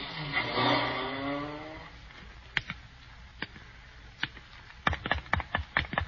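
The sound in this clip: A taxi cab drives away, its engine humming and fading out within about two seconds, followed by scattered sharp clicks in near quiet.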